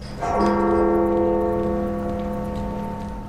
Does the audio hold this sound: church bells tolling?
yes

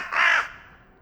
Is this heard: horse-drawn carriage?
no

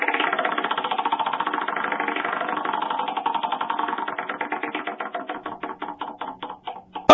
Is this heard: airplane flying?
no

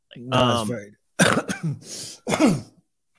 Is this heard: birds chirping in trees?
no

